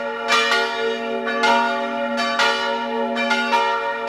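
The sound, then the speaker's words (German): Church bells ring the midday peal in Salzburg. Repeated overlapping strikes sit over a steady, resonant humming tone, loud and with no other sound. “Das hier sind die heutigen Mittagsglocken.”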